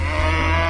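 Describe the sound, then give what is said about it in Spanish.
A cow moo sound effect marks a wrong answer in a quiz game: one short, low, steady lowing tone, heard alone. “Eso era una vaca.”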